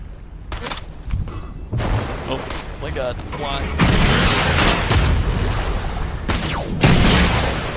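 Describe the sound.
Gunfire from another player in a video game, with dense booming shots and bursts that grow louder and merge into a near-continuous barrage toward the end.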